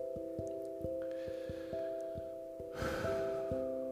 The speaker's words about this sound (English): I'm taking a deep breath before I begin today.